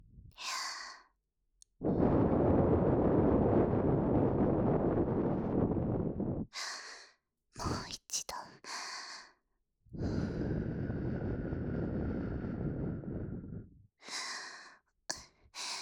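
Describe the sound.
Soft, breathy blowing directed at the listener: two long, sustained exhales, each several seconds, with short breathy puffs between them and no talking.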